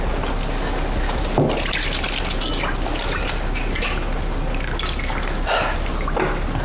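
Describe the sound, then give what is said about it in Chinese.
Water splashes and drips as hands are washed in a basin of water, with soap nearby: a steady wet sloshing and trickling with a few louder splashes, and no voices. “你去洗洗手，然后盆里有水，架子上有肥皂。”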